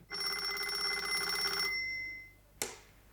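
A telephone bell rings in one long, bright, trilling burst that cuts off and fades, followed moments later by a single sharp click like the receiver being lifted.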